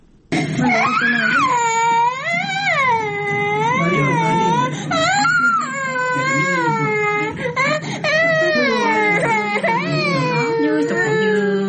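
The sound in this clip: Children wailing from hunger amid poverty and food shortage, with malnourished little ones crying because their bellies are empty. The loud, sustained sobbing has a strongly wavering pitch and rises and falls almost without pause throughout.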